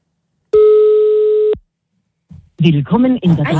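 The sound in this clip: A single steady telephone ring tone sounds for about one second during a call to a voicemail line, then cuts off, and after a short pause a voice starts talking.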